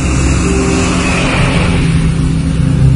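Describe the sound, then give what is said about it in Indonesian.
Car engine and tyre noise on a quiet road heading toward Bandung make a loud, steady rumble with no clear rise or fall. “Hanya 1-2 mobil saja yang lewat menuju Bandung.”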